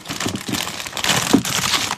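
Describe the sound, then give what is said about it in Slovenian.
Crinkling plastic snack bag holding crushed Plazma biscuits, a continuous dense crackle of handled packaging that runs steadily for about two seconds at moderate loudness, with no voices. “A bi imali zdrobljene plažme iz vrečke? Ali pa evo, tle imaš postane tortilje.”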